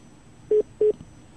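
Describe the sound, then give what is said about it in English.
Telephone line tones sound after a caller's connection dropped: two short, identical, steady beeps in quick succession over faint background hiss. “Are you there, caller? Hello? For some reason, we lost that connection.”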